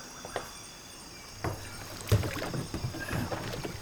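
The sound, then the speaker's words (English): A boat moving through water on an amusement park river ride: a steady watery wash broken by a few sharper splashes and knocks, with no talk. “Please move all the way to the end of the row and keep your hands and arms inside the boat. When the ride is in motion.”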